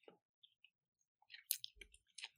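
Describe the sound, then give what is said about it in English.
Two people chew food with faint, scattered wet clicks and squishes, sparse at first and then bunching into a quicker cluster. “Why did we both chew at the same time? I was already chewing. Why did you take a bite? I was chewing first.”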